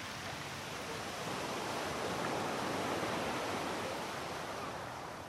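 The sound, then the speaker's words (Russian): Steady sea waves wash continuously in a dense, even rush of surf that swells slightly in the middle, with no voices and no breaks. “Размеренный шум волн и крик вечно голодных чаек. Запах моря.”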